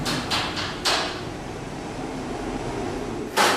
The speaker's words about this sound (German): Dann öffnet sich das Tor zum Ofen, computergesteuert.